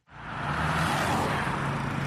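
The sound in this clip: Steady roar of car traffic on a Khartoum street in the moments before the Ramadan fast is broken at sunset. A continuous broad wash of engine and tyre noise holds throughout, with no single vehicle standing out.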